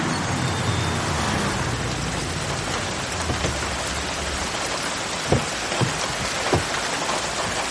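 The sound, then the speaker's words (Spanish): Heavy rain falling at night, a dense, even hiss of pouring water that continues throughout, with a few soft knocks near the end. “Después es noche cerrada y llueve con fuerza.”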